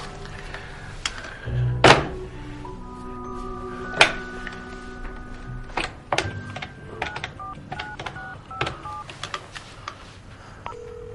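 A telephone is dialed in an office: a heavy clunk from the handset, then many short, bright keypad beeps at irregular intervals over a faint steady line tone.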